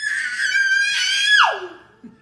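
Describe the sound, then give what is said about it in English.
A 16-month-old toddler lets out a single sustained, piercing high-pitched scream. It holds steady, then drops sharply in pitch at the end, and a brief faint sound follows. “So that person, that sound you heard right now, that could be my actual 16-month-year-old nephew”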